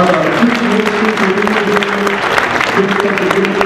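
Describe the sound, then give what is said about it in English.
Hand clapping from a church audience welcoming a guest, loud and continuous for nearly four seconds, with sharp individual claps standing out over a sustained low tone underneath. “Can we give him a great hand clap”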